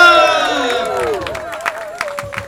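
A crowd cheers and applauds at the festive unveiling of the Kabouterbrug, a cycling bridge in Amsterdam. A drawn-out shouted cheer opens, then scattered clapping and cheering carry on at a lower, uneven level.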